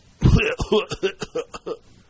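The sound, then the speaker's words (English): A person imitates a movie villain's cough with a rapid series of short, rough, hacking bursts. The bursts have a wheezy, throaty tone and are strongest at the start, then trail off. “As I exhibit my General Grievous cough.”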